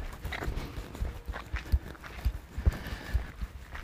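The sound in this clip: Soft footsteps of relaxed, upright walking, heard as faint low thuds at a steady, even pace over quiet background noise.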